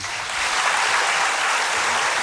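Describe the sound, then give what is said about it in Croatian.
Audience applause greets a band member being introduced. The clapping swells within the first moments into a full, steady burst from many hands, then holds at that level to the end. “molim aplauz.”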